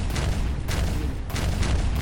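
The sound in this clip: A series of loud explosion booms as explosives ignite across an entire fairground, dense overlapping blasts forming a continuous rumbling roar punctuated by several sharper bursts.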